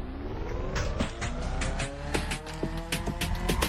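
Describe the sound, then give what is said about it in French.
A car engine cranking as it struggles to start, with a steady run of rapid, rhythmic mechanical pulses over a rough droning hum that stays loud throughout and never catches into a clean idle. “Alors ça, c'est le bruit de la voiture de ma femme quand elle essaie de démarrer.”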